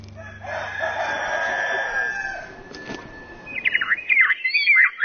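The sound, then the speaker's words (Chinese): Chickens roaming under dense walnut trees in a grassland village: a rooster's long, drawn-out crow, then quicker higher chirps and clucks. “周区县曲马乡程马村的打嘎坪，茂密的核桃树下，不仅有随地走动的鸡群，还有飘出的歌声和琴声。”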